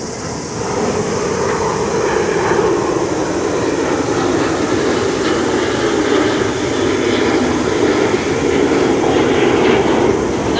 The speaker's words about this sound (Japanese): ほらまた来たよ自衛隊が今度は1気ですね